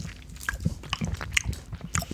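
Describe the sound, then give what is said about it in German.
Biting and chewing on a sour Center Shock candy. Many quick, crisp crunches and wet chewing sounds follow each other close to the ear, loud and steady throughout. “Okay, und ich esse hier mein Center Shock.”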